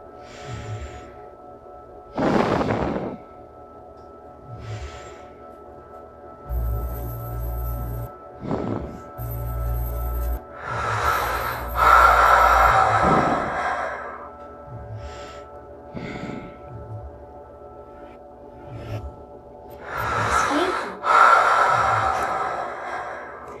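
Breathing sounds in an art installation, a sculpture entered through a gate whose fragments move with each inhalation. Slow, airy inhales and exhales recur at irregular intervals over a steady tonal hum, some breaths louder and broader than others.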